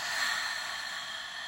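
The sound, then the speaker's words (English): A slow, deep breath is taken and released during a yoga session, heard as a soft, even, airy hiss that holds steady throughout. “Let's take a deep breath in and release.”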